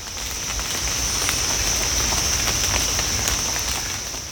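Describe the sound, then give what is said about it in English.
Water droplets drip through forest leaves after heavy rain in Virginia, making a steady, dense patter of many small drops with no voices. “is the sound of water droplets filtering through the leaves of the trees. Now, it was just raining quite a bit, but it's actually not raining anymore.”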